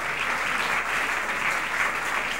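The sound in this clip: A church audience applauds in acclaim of the word of God, with dense, even clapping that holds steady from start to finish.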